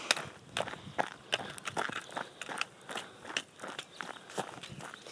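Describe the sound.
Footsteps of a person walking along a smooth, easy road, with many light, crunching steps. The rhythm is steady but faint.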